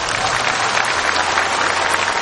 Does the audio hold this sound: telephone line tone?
no

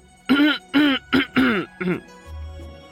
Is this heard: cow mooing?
no

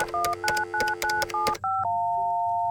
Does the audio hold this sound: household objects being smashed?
no

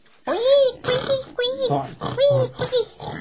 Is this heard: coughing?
no

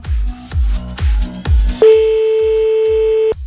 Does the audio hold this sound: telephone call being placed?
yes

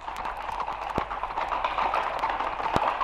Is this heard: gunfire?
no

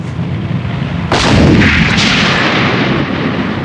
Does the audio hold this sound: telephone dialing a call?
no

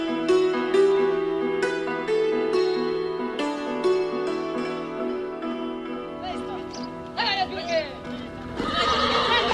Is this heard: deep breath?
no

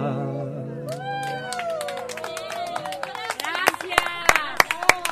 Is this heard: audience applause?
yes

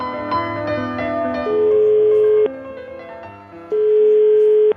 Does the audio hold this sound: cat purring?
no

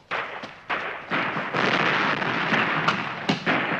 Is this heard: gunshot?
yes

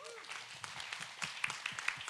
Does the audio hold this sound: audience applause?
yes

